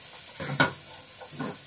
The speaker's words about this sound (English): I don't know how it couldn't smell bad though, because it's literally just garlic cooking with some stems.